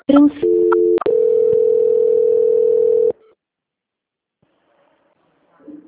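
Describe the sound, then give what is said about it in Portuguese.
Telephone tones sound while a call is put on transfer: a few short beeps, then a long steady tone that holds for about two seconds and cuts off abruptly, leaving near silence. “Então eu vou estar transferindo a ligação para ela só um minutinho, tá?”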